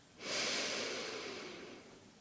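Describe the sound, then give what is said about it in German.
One deep breath drawn in through the nose, a soft, airy rush that swells quickly and then slowly tapers over about two seconds, heard quietly on its own. “Und noch ein drittes Mal tief über die Nase einatmen”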